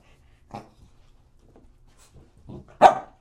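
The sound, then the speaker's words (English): A dog barks a few times: short, sharp barks separated by quiet gaps, with the last bark the loudest. “shh. Quiet. What you barking for, huh?”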